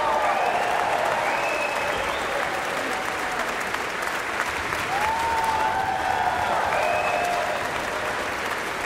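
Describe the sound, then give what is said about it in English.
A symphony orchestra concert audience gives a standing ovation, with dense, steady applause and a few high whoops and calls rising above the clapping throughout. “Cheers continue as Yannick returns for another bow and asks the principal players and whole sections of the orchestra to stand in turn to absorb the huge appreciation from the audience.”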